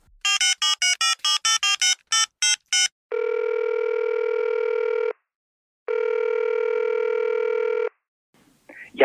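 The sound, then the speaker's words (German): A telephone call being placed: a rapid run of short, bright keypad dialing tones, then two long, steady ringing tones separated by a brief pause. “Ach, das lass uns doch mal anrufen.”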